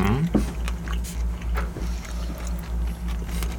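Someone bites into and chews deep-fried cheese, making soft, scattered crunches and mouth noises. A steady low hum runs underneath, with a faint murmur at the start.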